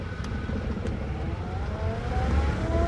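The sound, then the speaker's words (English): A car pulling away and driving off: a steady, rumbling engine with a thin whining tone that climbs slightly in pitch as it accelerates, holding an even, moderate loudness. “Her mother stands on the porch with her hands on her hips as Edie drives off.”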